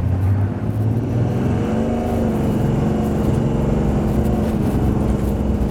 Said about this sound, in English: Maybe to help with the lag, the turbo on the bottom, I'm going to give it a little boost. Little staging. All right. Okay, 0 to 60. Go.